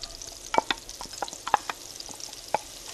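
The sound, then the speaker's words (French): Butter and olive oil sizzle and foam in a pan before spring onions go in, a steady crackling hiss broken by a few sharp clicks and stirring scrapes. “On met de l'huile d'olive et une noix de beurre. On attend que le beurre mousse. On va, normalement, voilà, on entend le bruit. Dès qu'il est fondu et qu'il mousse, on ajoute les oignons nouveaux.”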